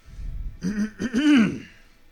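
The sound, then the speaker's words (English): A person clears their throat a little after a long silence: a few rough, gravelly voiced bursts, moderately loud and alone, with a low rumble before them. “After maybe 30 or 45 seconds of an uncomfortable silence, the Vidalkin clears his throat a little bit.”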